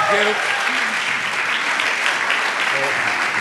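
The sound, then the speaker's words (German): A church audience applauds to welcome a guest pastor, a loud, continuous wash of clapping that stays steady throughout, with a voice speaking over it at the start and again near the end. “Kirche, lass uns doch mit einem herzlichen Berliner Applaus Pastor Greg French begrüßen.”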